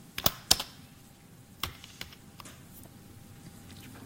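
Keystrokes on a computer keyboard: a few sparse, faint clicks, with a couple of sharper taps early on, then scattered softer presses separated by quiet gaps.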